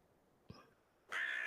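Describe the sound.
A crow gives a single harsh, raspy caw that starts abruptly and holds loud. A brief soft knock comes before it against an otherwise quiet background.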